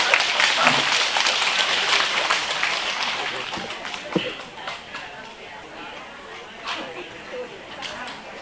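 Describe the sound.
Applause from the audience at a Buddhist dharma talk, loudest in the opening seconds and then thinning to a lighter, scattered patter for the rest.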